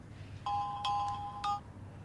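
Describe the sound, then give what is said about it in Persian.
Electronic ringtone of an incoming phone call plays a brief melodic phrase of a few bright, high tones, then stops. It is faint over a low, steady background hum. “خودش فهمید بیموقع زنگ زده قطع کرد. برو جواب بده.”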